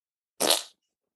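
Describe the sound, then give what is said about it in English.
A single short fart noise: one brief, raspy, breathy burst lasting about a third of a second, moderately loud and alone against silence. “That was a fart noise. How is this painting farting at me?”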